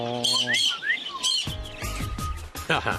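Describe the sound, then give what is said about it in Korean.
A person imitates cockatiel calls at a traditional market. High, sliding whistled tweets and chirps come first, followed by lower, buzzy voiced chirps, all moderately loud. “새소리 모사의 달인이셨네요. 왕관, 왕관 앵무, 해파람 소리.”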